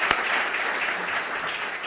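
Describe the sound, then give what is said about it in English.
A round of applause for students' outstanding work at an evening event, heard as an even, continuous patter of many hands clapping with a dull, muffled quality and one sharper clap near the start. “Can I please get a round of applause? Outstanding work.”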